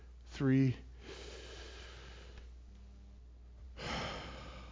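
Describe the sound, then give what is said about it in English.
A person takes a deep breath, heard as a soft, breathy rush near the end after a brief voiced sound, in a quiet recording. “Let's take another deep breath on the count of three.”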